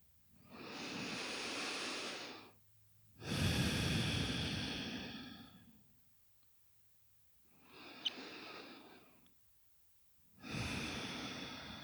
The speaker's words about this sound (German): Atme weiter so.